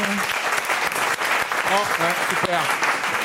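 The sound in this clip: An audience at a public show in Ayent bursts into loud, continuous applause, while an audience member shouts bravo and a few other raised voices call out above the clapping.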